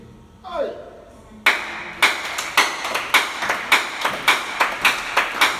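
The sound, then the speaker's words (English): Congregation clapping at a Wednesday church teaching service: after a brief voice, many sharp claps fall together in a steady, even rhythm that continues to the end. “Those who are clapping.”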